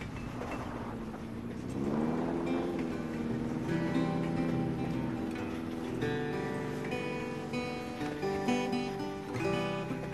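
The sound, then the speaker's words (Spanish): Car pulling away onto the road beside a freight train, its engine hum climbing in pitch early on and then holding a steady, droning tone with layered tonal whines for the rest of the sound. “Un tren de mercancías circula paralelo a la carretera. Juno arranca y vuelve a la calzada.”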